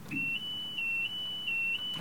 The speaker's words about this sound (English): it might have something to do with that alarm that's going off. Let's see if that alarm is still sounding.